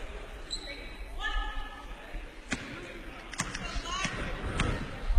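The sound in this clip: A basketball is bounced on the court by a player before a free throw in a women's college game between Ohio and Morehead State. Several sharp bounces ring out under crowd noise and a commentator's talk.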